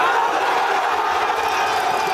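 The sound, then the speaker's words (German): Spanish football fans cheer after their team wins the World Cup final against Argentina, a loud, unbroken roar of crowd voices and shouting that holds steady from start to finish. “und so jubelt man in Spanien wahrscheinlich immer noch.”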